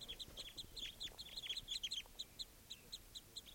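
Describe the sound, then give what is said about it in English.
Many high, chirping calls from a flock of birds, repeating in quick, irregular bursts throughout. The calls are faint and overlapping, with no voices. “Recording something scared off the flock. Sounds like another flock coming in.”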